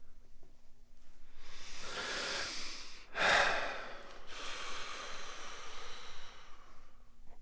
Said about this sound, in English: Breathe more deeply.